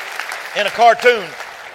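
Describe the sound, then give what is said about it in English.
A church audience claps along during a sermon, a steady wash of hand claps with a voice calling out in rising and falling whoops over it. “Are you proud of that? Clap your hands.”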